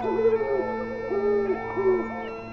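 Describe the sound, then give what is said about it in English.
Owl hooting: three steady, mid-pitched hoots, each with a slight bend at the start and end, sounding over a constant droning tone with no talk. “Oh, owl, owl on the tree. How many hoots does it take to get to the center of a hooty hoot hoot?”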